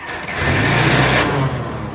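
A car engine runs as the vehicle slowly reverses away from a spot near a convent, a steady low rumble with broad noise that swells slightly through the middle and then eases.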